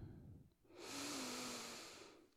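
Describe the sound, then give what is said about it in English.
A deep breath in during a guided breathing exercise: a long, steady airy rush that swells after a brief quieter moment and then fades slowly, heard alone with no talk. “Let's go ahead and take a really deep breath in.”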